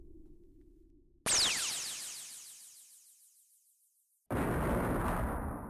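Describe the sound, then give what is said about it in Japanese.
An explosion hits with a sudden loud burst, then trails off in a long fading rumble over about three seconds. A second loud, harsh blast of noise cuts in abruptly near the end. “で何かが爆発した衝撃が伝わってきます。”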